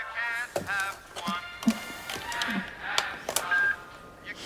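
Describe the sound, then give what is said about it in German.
Speakerphone button pressed on a telephone on a bedside table produces a few short, faint electronic beeps and clicks scattered across a few seconds, alone with no talk. “Am Telefon drückt Ellen die Freisprechtaste.”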